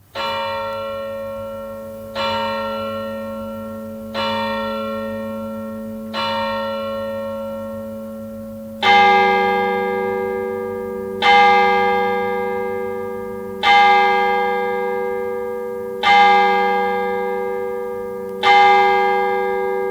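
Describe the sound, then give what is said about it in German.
Church bells ring at midnight in Bülertern with nine slow, evenly spaced strokes. The first four are softer, and the last five are louder and fuller, each ringing on into the next. “Mitternachtsläuten in Bülertern.”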